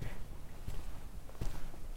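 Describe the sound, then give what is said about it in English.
Footsteps climbing the stairs of Hardwick Hall, a historic house: a few soft, faint steps stand out over a low, steady background rumble. “Right, having walked up all those stairs”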